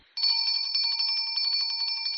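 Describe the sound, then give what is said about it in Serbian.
School bell ringing for the start of class: a high, rapidly pulsing electric ring that starts abruptly and holds steady and loud for about two seconds. “Zvonilo je za početak časa.”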